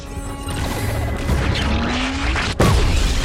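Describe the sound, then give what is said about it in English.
Sci-fi weapon fire from a Klingon ship shooting at Federation ships: a loud, dense rumble with a rising whine, then a sudden sharp explosive crack near the end. “Fire. The Klingon ship fires at the Federation ships. Battle stations!”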